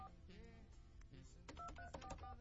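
Telephone keypad beeps as a phone number is dialed again in full. A quick, faint run of several short dual-tone beeps follows a quieter stretch.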